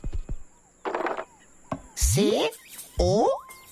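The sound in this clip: Improvised sound effects made with a cup: a few quick taps, a short noisy rattle, then two springy, rising boing-like sweeps.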